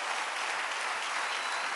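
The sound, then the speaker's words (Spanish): Audience applause during a sermon: a dense, steady patter of clapping that holds at an even level for the whole stretch, with no voices over it. “Dale otro aplauso”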